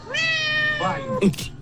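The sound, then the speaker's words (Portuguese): A cat meows once in a drawn-out, tonal call, followed by a short, sharper sound, loud and clear with no talking. “Vai cuidar desse gato, então.”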